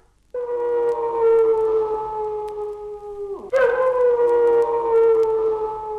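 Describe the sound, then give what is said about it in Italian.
A wolf howls in two long, sustained, harmonic-rich calls. The first holds steady and then slides down in pitch before the second rises in, loud and unbroken, with no voices. “l'ululato del lupo”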